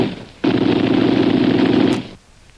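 Gunfire erupts in one sustained burst, a loud, dense crackling rattle that lasts about a second and a half, then cuts off abruptly.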